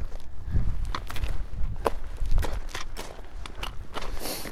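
Footsteps walking at a normal pace across a flat, rounded rock ridge: many irregular crunching taps and scuffs, with no talking.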